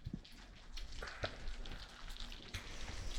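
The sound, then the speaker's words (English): Fish frying in a pan gives a faint, continuous sizzle broken by scattered small crackles and pops, with no talking. “Mmm, smells delicious. Yeah. Floribian cuisine. Fish fried, nothing, like, I really love the smell of fried fish.”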